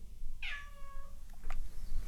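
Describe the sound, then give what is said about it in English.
A cat meows once, a clear, high, harmonic call, followed by a fainter, brief second sound. “There's my cat Jocelyn”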